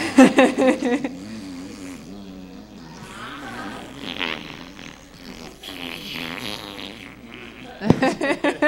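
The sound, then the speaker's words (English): Lip buzzing, a voiced, raspberry-like fluttering buzz that rises and falls in loudness over several seconds, with rougher, louder bursts at the start and end. “can you buzz your lips, master? Buzz?”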